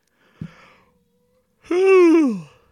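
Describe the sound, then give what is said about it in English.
A tired adult yawns after a long day: a brief breath in, then a long voiced yawn that slides downward in pitch and trails off, with no talk. “got the yawns today. Hopefully we'll edit that out.”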